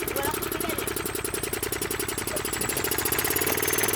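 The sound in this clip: A push-started vehicle engine, left unused for fifteen days, runs with a rapid, steady putter of pulses. Its level swells slightly toward the end.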